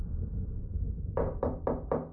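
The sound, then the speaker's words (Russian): Timid knocking on a door: five soft, evenly spaced raps in a quick, even rhythm over a low, steady background hum. “В дверь робко постучали.”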